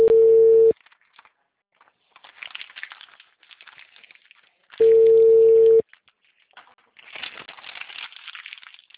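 A telephone tone on a call that reached a busy number: two long, steady mid-pitched beeps about four seconds apart, with faint crackly line noise between them.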